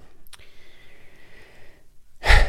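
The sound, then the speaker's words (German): A deep breath drawn in, a loud, airy rush of air that comes abruptly after a quieter stretch. “Kurz nochmal durchatmen. Ich merke, wenn ich so schnell rede, dann atme ich zu flach.”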